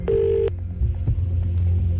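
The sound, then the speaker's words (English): A single short telephone ring sounds on an outgoing call-in prize call, a steady buzzing tone over a low, throbbing background hum. “Answer within five rings. Give us the exact amount and it's all yours. Let's go. Thanks, Ray. You're welcome, sweetheart. One ring. Two rings. Three rings.”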